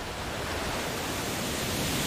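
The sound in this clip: Waterfall pouring down into a river on a Caribbean island, a dense, loud, even roar of rushing water that stays constant throughout without breaks or voices.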